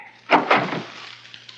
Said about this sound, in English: I don't dare open the door. Then I guess I'll have to.